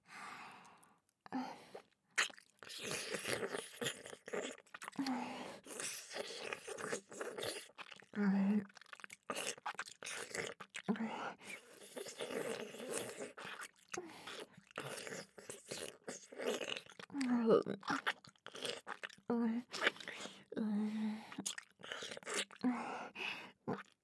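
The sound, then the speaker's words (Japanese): Wet ASMR mouth sounds of chewing and nibbling close to the ear: dense, soft clicks, smacks and crunchy nibbles in a continuous irregular stream, with occasional breathy pauses. “次はお耳深くを食べていきますからね。”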